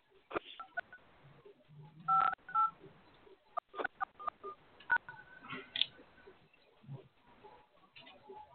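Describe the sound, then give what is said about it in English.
Telephone keypad tones from digits being entered for a PIN on a phone conference line: many short, crisp beeps in an irregular sequence, some held slightly longer than others. “I did not hear you press at least 4 digits of your PIN number.”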